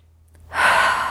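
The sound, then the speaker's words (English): A single big, deep breath begins softly and then swells into a long, breathy rush about halfway in. It holds steady to the end, alone and unaccompanied. “Tap the index finger, big deep breath.”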